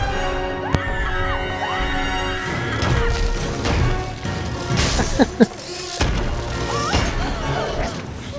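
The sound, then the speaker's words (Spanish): A walking cane strikes someone: a few sharp whacks and thuds, clustered mostly in the second half, amid voices and cries. “Pégale con el bastón.”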